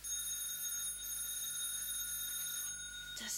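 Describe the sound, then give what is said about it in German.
A doorbell rings with someone at the door, a faint, steady, high-pitched electric ring held almost unbroken for several seconds before cutting off with a short burst of noise. “Das ist kein Wecker. Da ist einer an der Tür.”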